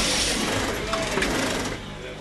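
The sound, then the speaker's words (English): Sewing machines and steam presses in a small Moscow clothing factory making uniforms produce a dense, steady mechanical clatter and hiss that fades slightly near the end, with speech heard over it. “some of his 150 employees hunch over sewing machines and man steam presses in his small Moscow factory”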